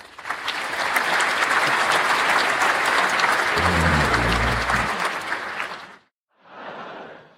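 Studio audience applause: loud, dense clapping holds steady for about six seconds, stops for a brief silence, then returns as a short second burst.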